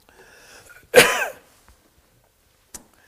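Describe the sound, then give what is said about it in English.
A preacher clears his throat during a sermon: one strong, harsh rasping burst amid quiet background, followed later by a faint short click. “let me get whatever's in my throat out of it.”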